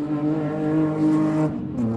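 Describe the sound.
A car engine drones with a rich, buzzy harmonic note held steady and loud, then dips briefly and climbs again near the end.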